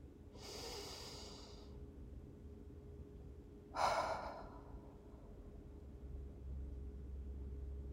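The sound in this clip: An audience in a room takes a collective breath: a soft, airy inhale, then a couple of seconds later a louder, rushing exhale, both faint over a low, steady background rumble.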